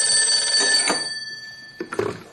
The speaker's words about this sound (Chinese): 这时桌上的电话响